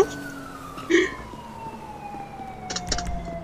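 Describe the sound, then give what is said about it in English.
A police car siren in a driving video game, a steady wailing tone that slowly falls in pitch, with a couple of brief thumps and noise bursts over it. “Ah, Los Santos police car.”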